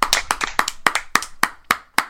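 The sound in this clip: Hand clapping done off mic by two people standing in for applause: many sharp, crisp claps in a quick, slightly uneven rhythm, heard alone without talk.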